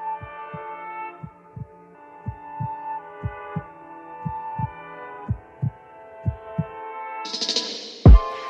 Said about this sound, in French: T'entends les battements de cœur.